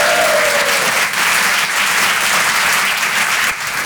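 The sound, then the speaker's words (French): An audience applauds a presenter at an evening stage show with loud, continuous clapping that holds steady throughout, dipping only slightly at moments, with no speech over it. “Un maximum de bruit pour le présentateur Guillaume”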